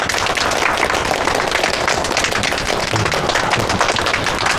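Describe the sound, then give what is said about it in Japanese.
Audience applause from a crowd, a dense and loud patter of many hands clapping that holds steady without a break from start to finish. “みんな拍手”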